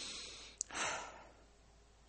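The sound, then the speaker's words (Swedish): One slow, deliberate breath taken during a guided breathing exercise. It is a soft, airy rush of air that starts with a tiny click, swells briefly and then fades into quiet. “Bevisst pust.”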